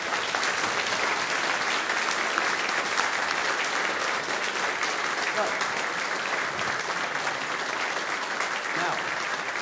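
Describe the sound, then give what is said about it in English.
Audience applause welcoming a Salvation Army band in Felixstowe: dense, steady clapping from a crowd that keeps an even loudness for nearly ten seconds without fading. “Now let's give them a Felixstowe welcome.”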